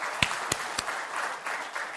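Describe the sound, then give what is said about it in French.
Audience applause: dense, steady clapping for the whole clip, with a few louder single claps standing out at intervals. “Amen, on peut applaudir.”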